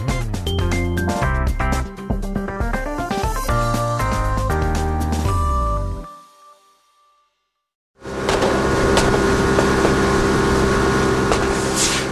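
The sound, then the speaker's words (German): Speedboat engines roar through the narrow river channels of the Volga delta near Astrakhan, Southern Russia, in a loud, steady rushing drone that follows a stretch of music and a short silence. “Motoren heulen auf, Gewehre knattern, Schnellboote jagen durch die engen Kanäle.”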